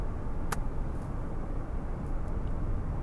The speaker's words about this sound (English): But honestly, right now, I am driving. I'll be in the vehicle for another hour and a half.